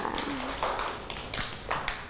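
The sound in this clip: Children clap for a classmate in a school setting. The claps are scattered and uneven, a few sharp taps over several seconds, with faint voices underneath.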